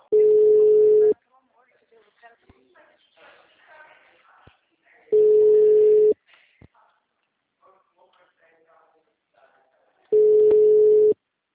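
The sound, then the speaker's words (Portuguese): Telephone line signal tone: three steady, low one-second beeps spaced evenly about five seconds apart, with faint murmuring talk in the gaps between them. “O número chamado está ocupado.”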